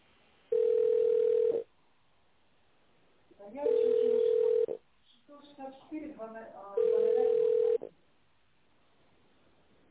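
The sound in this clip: A telephone ringback tone plays while an office call is transferred: three steady, one-second tones spaced about three seconds apart, with a brief voice heard between the second and third.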